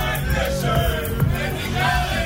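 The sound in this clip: Festival crowd cheering outside a radio studio at the Parookaville festival, picked up by outdoor microphones: a dense, steady wash of many voices with scattered whoops and shouts that stays loud throughout.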